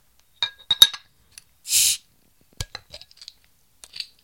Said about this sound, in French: Je débouche ça.